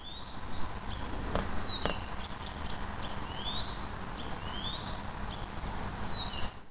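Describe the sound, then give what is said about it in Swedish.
A Blyth's reed warbler sings at night on a shore meadow by Esbo Långträsk, giving faint, high chirps and short whistled phrases that recur at intervals over a steady background hiss. “Var det där en busksångare? Ja, den sitter och sjunger i, i lugn och ro kan man säga. Det är en, en lugn sångare, den här busksångaren.”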